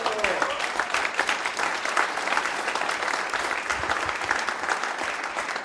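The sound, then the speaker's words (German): Steady applause from guests at an event in a hotel run in the old Austrian style. The claps blend into a dense, even patter that stays fairly soft and unbroken throughout. “Das ist ein Applaus wert”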